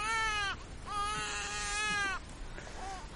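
A baby cries while held in its mother's arms. Two drawn-out, fairly faint wails are separated by a short pause, and a brief whimper follows.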